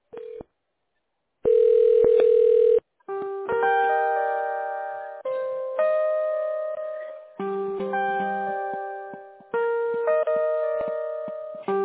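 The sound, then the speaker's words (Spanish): Telephone ringback tone while placing a call: a brief beep, a longer steady tone, then a series of sustained electronic tones that shift in pitch from one to the next. “Ok, en este momento estamos llamando, solamente manténgase en la línea conmigo.”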